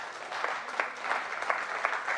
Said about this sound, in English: you can clap.